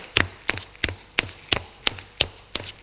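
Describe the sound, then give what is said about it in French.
Knocking on a bedroom door: a long, steady series of sharp, evenly spaced raps, each with a dull low thud. The knocks are moderately loud over a quiet background. “Frappe à la porte et entre.”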